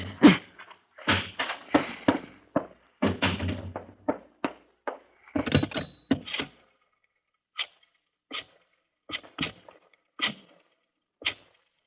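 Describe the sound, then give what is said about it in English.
A key fumbles in a door lock, making many sharp metallic clicks, rattles and knocks, clustered closely at first and then spaced out into sparser taps. “Key. Where's my key? This darn lock.”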